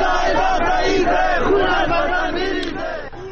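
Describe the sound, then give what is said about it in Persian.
Protesters in the streets of Zahedan chant together in a steady, rhythmic cadence. The massed voices rise and fall in repeated phrases and stay loud throughout, with a slight fade near the end. “این هم صدای مردم زاهدان بود در جمعه دیگه بعد از جمعه خونین زاهدان، 8 مهر، که هر جمعه مردم به خیابون میان.”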